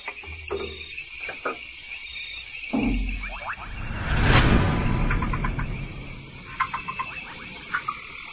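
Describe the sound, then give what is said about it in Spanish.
Clicking calls of a red-eyed tree frog of Central American undergrowth, repeated in short bursts amid chirping insects, with a swelling broad rush midway. “La rana verde de ojos rojos.”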